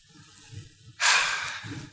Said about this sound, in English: We take a breath.